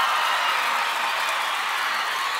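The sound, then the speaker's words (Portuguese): A concert audience applauds, a continuous, even wash of clapping and crowd noise with no breaks or peaks. “Salve de palmas pra todas as minhas fãs lindas, maravilhosas e cheirosas!”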